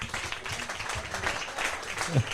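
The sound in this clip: An audience gives a brief, light round of applause for someone called to the front at a German event. The clapping is steady and moderate, with a slightly louder bump near the end.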